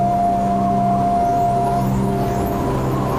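Steady road noise from a car on a 280-kilometre drive to Baosheng, a loud, continuous engine hum and tyre rumble with a faint steady whine running through it.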